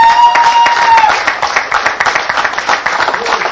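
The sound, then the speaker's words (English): A church audience applauds to welcome its online audience. The clapping is loud and dense and keeps a steady level for a few seconds. “And we'd like to welcome our online audience. Let's give them a big hand.”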